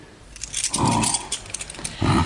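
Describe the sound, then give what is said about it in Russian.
Keys jangling as a house's set is handed over, light metallic clinks scattered through, alongside brief low vocal sounds. “Вот ключи.”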